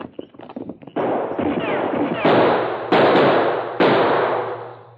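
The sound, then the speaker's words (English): Gunshots fired from behind a large rock on the side of a canyon: after a short stretch of clatter, four loud, sharp reports ring out, each trailing into a long, noisy decay. “Someone shooting behind large rock on side of canyon.”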